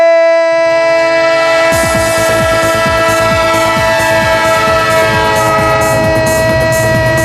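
A loud train horn blares continuously while a passing train's clattering wheels join after a moment and keep up a rapid rhythmic rattle beneath the steady horn.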